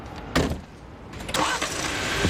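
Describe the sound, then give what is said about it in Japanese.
A Jeep Wrangler engine starts with a short cranking burst, then a second louder burst, before settling into a steady low engine rumble. “ジープラングラーに乗って普段からよく行くポイントに向かいます。”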